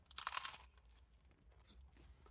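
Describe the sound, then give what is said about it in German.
Crunchy chewing of a warm fish patty sandwich: a dense burst of crisp bites at the start, then quieter, softer chewing sounds, all faint and with no talk. “Weil es ein Fischfrikadellenbrötchen. Ich weiß jetzt, was ihr denkt. Fischfrikadellen. Da ist ja alles drin. Flossen, Köpfe, Muscheln. Aber egal. Schmeckt.”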